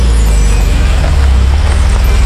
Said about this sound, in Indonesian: Kok ada macet-macetan gini?